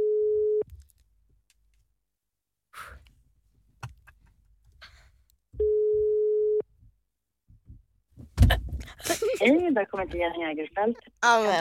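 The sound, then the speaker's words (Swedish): A telephone ringing tone sounds on an outgoing call: two steady, low, buzzing tones, each about a second long and roughly five seconds apart, with quiet gaps between them. People then talk and react loudly near the end. “Nu ringer jag igen.”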